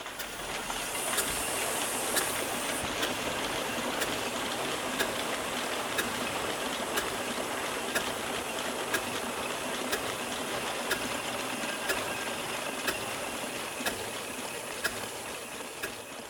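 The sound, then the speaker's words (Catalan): Steady hiss and low mechanical rumble from a factory steam engine whose flywheel drives a large belt powering machines in a production hall, with faint regular clicks about once a second throughout. “el volant accionava la gran corretja que estava connectada amb la nau de producció.”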